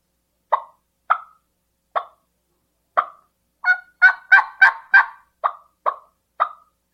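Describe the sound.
A turkey clucks about a dozen times: short, crisp clucks, spaced widely at first, then bunched into a quicker run in the middle before spacing out again. They stand alone, with no talk.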